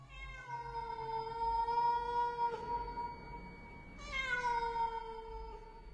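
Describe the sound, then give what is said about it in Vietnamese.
A house cat meows twice, each a long, drawn-out tonal cry, quiet and clear, with a short pause between the two calls. “Thì ra là con mèo thằng cu Tuấn nuôi, nó nằm ở ngay đấy.”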